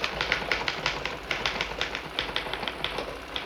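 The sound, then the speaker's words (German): A typewriter clattering: many rapid, evenly spaced keystroke clacks at a steady rhythm over a faint constant hiss, with no voices. “Eine Schreibmaschine klappert.”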